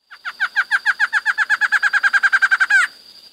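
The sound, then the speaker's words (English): A barred antshrike call played as a phone ringtone, a loud series of many clipped, hooting notes that quicken steadily and finish in a brief rattling flourish. “That was a barred antshrike.”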